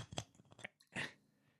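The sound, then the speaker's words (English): A can of Guinness beer is cracked open: a few faint, soft clicks and crunches are followed by a short, airy hiss that fades away, all quiet and with no voices. “cracking another Guinness. Yummy.”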